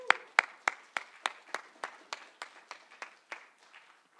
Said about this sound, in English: So I'm thrilled once again to welcome up Dr. Carl Lehman. Let's give him a hand.